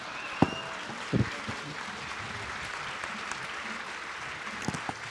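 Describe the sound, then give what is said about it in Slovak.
An audience applauds during a debate, a faint, steady patter of clapping with a few louder, sharper claps standing out at the start and near the end. “ale tlieskajú, ľudia tlieskajú”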